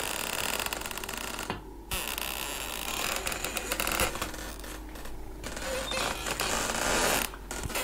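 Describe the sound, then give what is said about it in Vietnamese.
Door hinges creak as a kitchen door opens on a rainy, windy night, a drawn-out grating creak within dense, rough noise that stays fairly even in loudness throughout. “tiếng mở cửa bỗng nhiên phát ra. Trong mưa gió ẩm ĩ như thế mà cái tiếng bản lề kêu lên ken két xoáy vào tai nó.”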